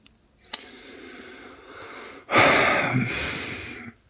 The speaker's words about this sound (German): Merkst du dieses tiefe Einatmen?